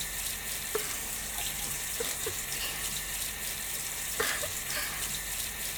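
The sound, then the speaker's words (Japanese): Hot water runs from a tap in a steady, even hiss, with a few faint splashes breaking through now and then. “先っぽにお湯当てられるの気持ちいいですね。”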